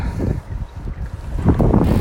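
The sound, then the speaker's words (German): A strong northwesterly headwind buffets the microphone in low, rumbling gusts that swell and ease unevenly. It is fairly loud, and no voices are heard. “sodass wir also, wo es eben ist, nicht so flott vorankommen, wie wir gedacht haben, weil wir halt ständig gegen den Wind ankämpfen müssen.”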